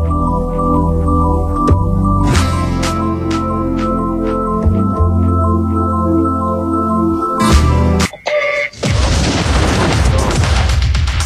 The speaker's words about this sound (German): The Heterodyne High Quality Sound Recreation Explosion.